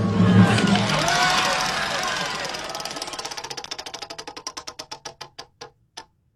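A prize wheel spins: a noisy rush at the start gives way to rapid clicking that slows steadily, the ticks spreading farther apart until one last click and silence.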